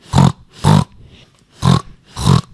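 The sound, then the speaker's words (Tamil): Pig grunting in four loud, short, rough bursts of roughly equal length, paired two and two with a quiet gap between the pairs and no voices present. “இது பேர் பன்னி சத்தம்.”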